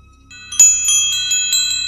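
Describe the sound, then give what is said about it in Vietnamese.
A handheld soul-guiding bell is rung by a master during a ritual to lead spirits, giving bright, high, ringing strokes in quick succession that blend into a sustained shimmering tone over a low hum. “Sư thúc rung chuông. Minh Long kêu lên một tiếng.”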